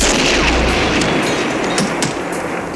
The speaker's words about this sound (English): The guns they give you are real guns? Real guns. That's incredible.